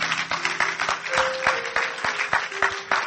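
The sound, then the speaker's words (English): Congregation applause in a church service: dense, steady hand clapping fills the whole stretch at an even loudness, with a low sustained tone beneath it. “Give the Lord another hand clap of praise for”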